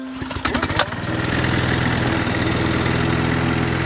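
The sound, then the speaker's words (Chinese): A ride-on lawn mower engine sputters through a few uneven bursts as it starts, then settles into a steady, loud running drone with a low, buzzing hum, heard alone. “这除草机是吧？ 我先示范一下哈。”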